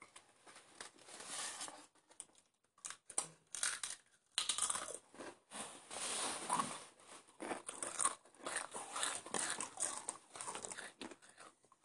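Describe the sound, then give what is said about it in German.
Faint crinkling of a snack bag and repeated crisp crunching as a potato chip, the last one in the bag, is pulled out and bitten, many irregular crackly bursts with no talk. “Ich hol jetzt den letzten Chip raus.”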